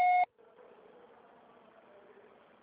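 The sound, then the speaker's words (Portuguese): A single short electronic voicemail beep sounds right after a leave-a-message prompt. It is loud, steady and high-pitched, then gives way to a faint, low, continuous background noise. “Deixe seu recado.”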